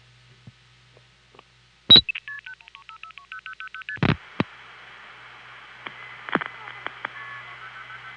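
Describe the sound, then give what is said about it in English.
Multi-frequency telephone signaling tones send dialed digits, including an area code, between exchanges. A sharp click comes first, then a rapid run of short, evenly spaced two-tone beeps and another click, followed by a steady high tone with scattered faint clicks. “to send the area code too. It'll be 10 digits of MF, ta-da-da, tick.”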